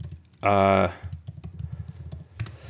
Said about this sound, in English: please pardon me as I'm typing